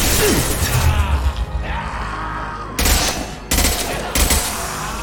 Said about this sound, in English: Oh, shit, this is a lot of bullets.